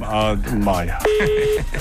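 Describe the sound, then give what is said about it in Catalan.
Telephone dialing tone as a call is placed to a correspondent in Madrid: a single steady keypad beep lasting about half a second, right after a brief stretch of talking. “Així, Àlex, sisplau, truca, perquè tenim un corresponsal a Madrid”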